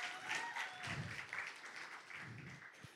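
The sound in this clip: Audience applause welcoming a speaker to the stage at a Veterans Day dinner: faint, steady clapping with a sustained, even hiss and no pause.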